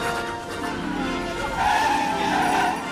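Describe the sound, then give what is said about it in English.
Cartoon reindeer skid across a snow-covered roof after diving down to land. A continuous scraping slide builds partway through into a louder, sustained squealing screech. “Diving toward a building, they skid across the snow-covered roof.”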